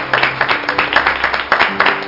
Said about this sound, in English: Let's give the Lord another hand clap of praise.